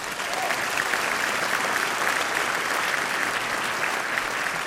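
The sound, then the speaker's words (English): Audience applause at a Michigan Christmas concert for the Bijou Orchestra from Bay City, performing with the Saginaw Choral Society: dense, steady clapping that holds at an even level throughout, with no speech over it. “Can we get a hand for the Bijou?”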